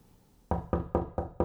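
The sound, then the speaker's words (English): Five firm knocks on a door follow a short quiet moment, evenly spaced and equally loud, each a sharp rap with a brief decay. “Honey, who's at the door? Honey, who is at the door? Honey, who's at the door?”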